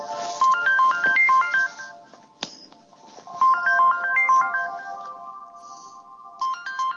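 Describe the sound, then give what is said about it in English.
A phone ringtone plays a bright, high electronic melody of quick repeating notes in bursts separated by short pauses, fairly loud, with no voices. “Hell of a ringtone there.”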